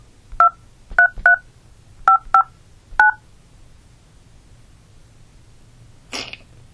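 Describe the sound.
Telephone keypad tones dialing a number into a prepaid calling service: six crisp, short dual-pitch beeps in uneven groups, followed after a silent pause by a brief noisy burst.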